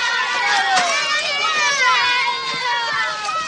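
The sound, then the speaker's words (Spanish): Farm workers' children shout and call out as they run after a horse-drawn reaper, their many high voices overlapping in a continuous, excited clamor of rising and falling cries. “Los niños de los campesinos corren tras una segadora en la que Giovanni va montado tirada por un caballo.”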